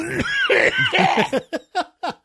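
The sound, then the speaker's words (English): A person coughs: a rough, voiced throat sound gives way to four short, sharp coughs evenly spaced and fading slightly, loud and without talk. “Hit your cough button.”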